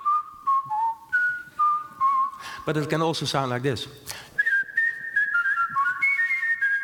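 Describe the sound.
A person whistles a Christmas melody in clear, bright held and sliding notes, broken midway by a short stretch of speech before the whistled tune resumes.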